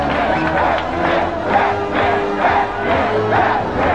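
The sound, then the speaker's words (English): A stage-show audience chants "Batman" in unison, a loud, rhythmic crowd chant with regular swells of many voices repeating the name over steady crowd noise. “Soon, the entire audience was chanting, Batman, Batman!”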